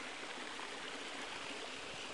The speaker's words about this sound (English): Let's follow this stream down towards the river